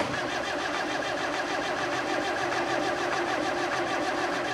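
A car engine being cranked in cold weather, struggling to start: a dense, steady mechanical churn that holds an even level throughout and never catches.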